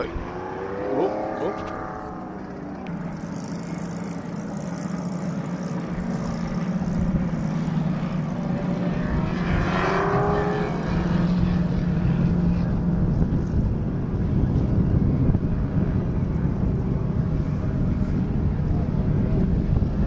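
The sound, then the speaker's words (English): Race cars running bunched together in formation under a caution flag, a dense, continuous engine drone that holds steady throughout rather than breaking into separate passing roars. “together at once because they've been bunched up under a caution flag, so you don't get the individual roars as they race. Right now they're just in line, in formation.”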